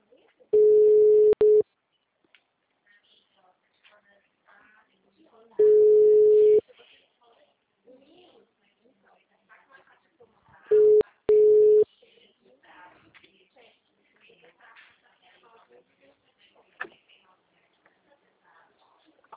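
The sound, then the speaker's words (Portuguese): A telephone ringback tone sounds while a call is placed: steady, mid-pitched beeps about a second long, separated by several seconds of near silence, with faint background noise between them. “Tá chamando.”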